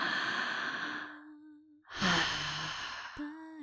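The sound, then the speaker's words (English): A slow, deep breath in and then out, each a long airy rush of noise separated by a short pause, heard over a soft sustained musical tone with no talk. “Take a deep breath.”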